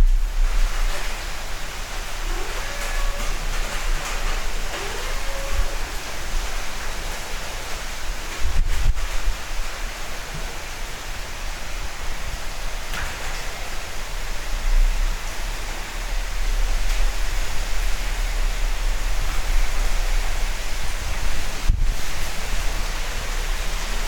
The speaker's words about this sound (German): Da kommt richtig was runter. Bin mal gespannt. Oh, es kommt Wind.